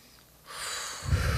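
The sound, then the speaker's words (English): A deep inhale during an abdominal breathing exercise: a long, breathy rush of air that swells in after a brief quiet start and grows fuller and louder toward the end. “And one more time. Inhale.”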